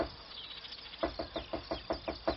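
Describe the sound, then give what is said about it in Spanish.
Woodpecker pecking at a wooden ladder: a quiet, evenly spaced run of sharp knocks starts partway through and continues steadily over a soft hiss. “Un pájaro carpintero subió a mi escalera y comenzó con cuidado a picotear la madera.”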